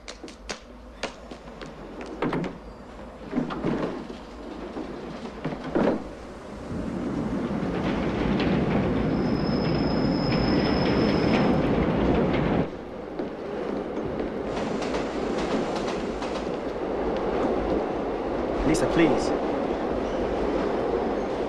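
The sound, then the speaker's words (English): A London Underground tube train runs with a rumbling clatter, a busy, graffiti-covered carriage in motion. The roar swells after a few seconds, a thin high wheel squeal rings out midway, and rattling continues to the end. “just catches the same graffiti-covered tube that Lisa has already boarded. Making his way through the busy carriage”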